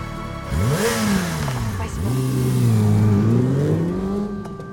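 A sport motorcycle engine revs loudly as it pulls in. Its pitch climbs, drops sharply near the middle, then climbs again and holds in a sustained roar.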